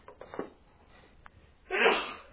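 A single sneeze bursts out sharply after a few quiet moments, loud and brief against an otherwise hushed background.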